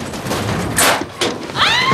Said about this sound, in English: A metal door is pounded with a rifle's muzzle.